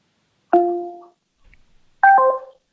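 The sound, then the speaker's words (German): A phone call hang-up tone played through a smart speaker: two short electronic chimes, the first a steady two-tone beep and the second a brighter, slightly higher, layered tone, with near silence between them and no talk. “Dann lege ich jetzt wieder auf. Das ist nämlich auch tricky. Alexa, auflegen.”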